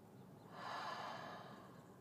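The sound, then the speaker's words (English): A slow exhale during a guided breathing exercise: a faint, soft, airy rush of breath that swells and then eases off over about a second, with no talk. “One more, inhale. And exhale.”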